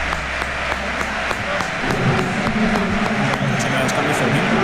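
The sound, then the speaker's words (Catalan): Stadium crowd at a football match at Camp Nou applauds substituted players. The sound is a steady, dense wash of clapping and crowd noise with scattered sharper claps. “Els últims dos canvis del Barça: marxa Olmo, marxa Rodri, entra en Gavi i Gabriel Jesús al Camp Nou, que també ovaciona Rodri Olmo.”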